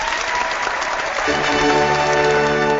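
Studio audience applause, a steady, dense wash of clapping throughout, joined about halfway by background music underneath.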